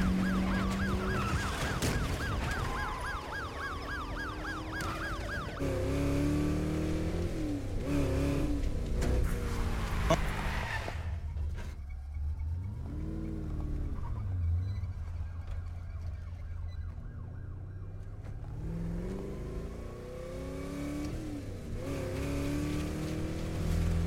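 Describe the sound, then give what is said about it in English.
In a movie car chase, engines roar and rev hard while police sirens wail. The noise swells and fades in waves, dropping to a lower engine rumble midway before building again. “The fact that he didn't just make that turn perfectly is what makes this car chase, like, good. Makes it believable.”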